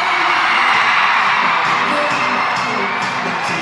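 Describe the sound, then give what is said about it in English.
Thousands of children, some 16,000, scream and yell at the stage inside the Allstate Arena during a We Day Illinois event. The sound is a dense, loud, continuous wall of high-pitched shrieks and cheers. “thousands of kids, 16,000 to be exact, scream and yell at the stage during We Day Illinois.”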